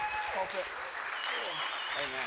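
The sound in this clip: Applause from the audience at a South Coast Christian gathering as a speaker is called up to the stage: a dense, steady patter of clapping throughout, with voices mixed in.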